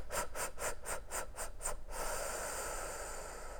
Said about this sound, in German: Dann erinnere dich, die Lippenbremse, dieses Ausatmen über die Lippen, also dieses